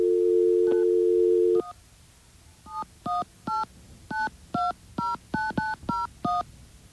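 A dial tone on a telephone gives way to a quick string of touch-tone beeps as a number is dialed. The steady hum stops, and short, evenly spaced key tones follow in a brisk rhythm.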